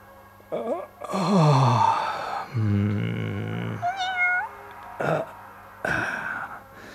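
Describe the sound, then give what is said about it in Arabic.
A cat meowing beside a man lying on a bed: several drawn-out, wailing meows, some long and sliding, one higher and shorter, separated by brief pauses. The calls are fairly loud and clear, with no talk over them. “إحدى القطط إلى جواره تموء من آن لآخر.”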